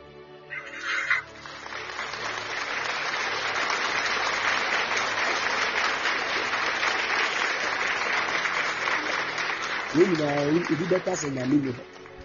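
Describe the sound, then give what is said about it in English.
An audience at a religious gathering claps in sustained, dense applause that holds steady for about nine seconds. A voice then speaks over the clapping near the end. “Clap for Jesus for the prophet.”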